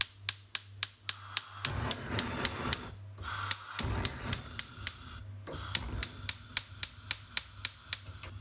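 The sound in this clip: A stove is being lit to heat a cooking pot: many sharp, rapid clicks come in quick rhythmic runs with brief pauses, over a low steady hum.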